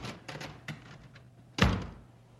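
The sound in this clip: A door shuts with a single heavy thud as someone is ordered out of the owner's office of a barge company, following a few faint earlier taps and knocks.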